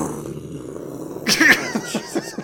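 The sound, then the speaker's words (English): Tiger growling in a few rough, pulsing bursts that start abruptly after a quiet, humming stretch and then trail off in short rumbles. “He could possibly capture John Preston. I've certainly captured a tiger.”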